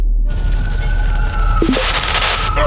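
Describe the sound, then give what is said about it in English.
Gunfire from attacking Kogan warships: a steady whining hum gives way midway to a burst of bright, crackling shots that carries on to the end. “This sphere is infested with Kogan warships! Oh no! There are thousands of them! Just shooting up the place!”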